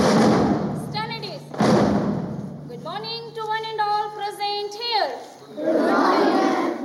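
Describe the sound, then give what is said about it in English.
Students and teachers gather for a morning assembly in a schoolyard in India: loud shouted calls and crowd voices lead into a long stretch of many voices chanting or singing in unison, then return to general crowd noise. “This is the sound of a typical morning assembly at a school in India.”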